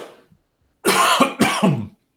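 A person clears their throat with two rough, raspy coughs in quick succession, loud and close together, with no talk around them.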